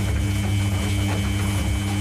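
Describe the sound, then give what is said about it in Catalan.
A washing machine runs with a steady low mechanical hum and a continuous whirring, buzzing noise, holding even and unbroken throughout with no voices. “Això és una rentadora.”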